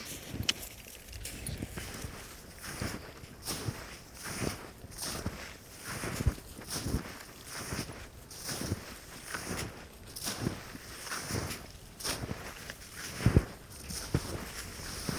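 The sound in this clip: Footsteps crossing a snow bridge on a glacier: many soft, crunching steps in a steady walking rhythm, faint beneath a light wind.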